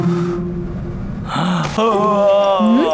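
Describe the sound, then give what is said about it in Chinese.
A yawn in a classroom scene: a drawn-out, voiced breath with a wavering tone that climbs in pitch at the end, fairly loud. “海月刚才打哈欠了”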